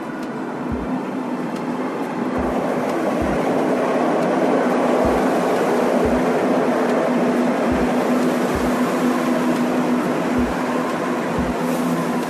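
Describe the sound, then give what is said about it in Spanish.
A train arriving, heard as a steady, loud rumbling roar with a low hum. Regular low thuds of wheels crossing rail joints recur throughout, with no voices. “El tren llega.”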